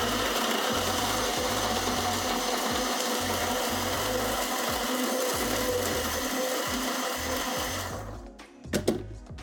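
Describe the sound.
A blender whirs loudly and steadily as it blends milk with nutritional yeast, with a pulsing low churn underneath. The motor then cuts off near the end, followed by a few light clatters.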